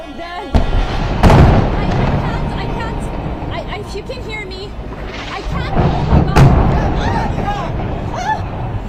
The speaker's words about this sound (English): On Wednesday, a reporter in Gaza captured the moment a building was destroyed.